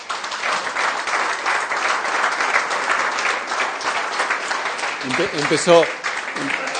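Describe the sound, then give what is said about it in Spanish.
Applause from an audience after a talk, steady dense clapping that holds evenly throughout, with a voice briefly speaking near the end. “Empezó a aplaudir”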